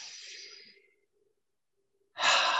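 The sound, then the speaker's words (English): Deep breaths during a guided visualization exercise, drawn in through the nose and let out through the mouth: two soft, airy breath sounds alone, separated by a near-silent pause, the second louder and fuller. “Take a deep breath in through the nose, out through the mouth.”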